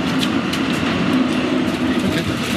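A tram riding along its tracks gives a steady, loud rolling rumble with light rattling and a low, constant hum throughout, with no voices.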